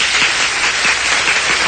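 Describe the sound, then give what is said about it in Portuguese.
Applause from many people, a dense and steady burst of clapping that stays loud and even through its short length, with no voices over it. “Tempestade de beleza, Fra. Aplausos.”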